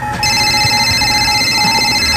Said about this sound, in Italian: No, lo chiamano al cellulare.